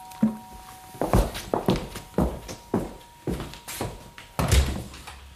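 Footsteps of someone going upstairs in a German radio crime drama: a steady series of many heavy, thudding steps, each a distinct knock, with no voices.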